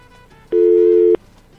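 A telephone busy tone sounds after a dropped call: one loud, steady electronic beep of mid pitch. It lasts just over half a second and stands alone against faint background noise.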